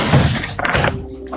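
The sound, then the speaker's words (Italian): A door or window being shut: a muffled thunk lands midway through a dense rumble, then the noise settles into a quiet steady hum. “Chiudo la porta, finestra.”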